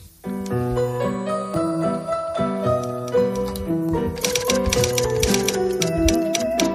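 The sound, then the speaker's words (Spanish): A typing sound effect of rapid clicking keystrokes grows denser and sharper in the second half, set over sustained tonal notes. “Esto significa teclear.”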